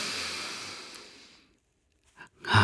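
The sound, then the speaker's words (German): A deep breath drawn in, a breathy airy rush that thins out and fades over about a second and a half. Near-silence follows, broken by a couple of faint short sounds. “atme mal einmal tief ein.”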